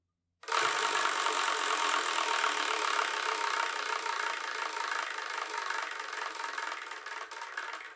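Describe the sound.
Rapid mechanical clicking from a spinning selection wheel starts abruptly and runs as a dense, continuous whirring rattle to the end, the individual ticks becoming slightly more distinct near the end.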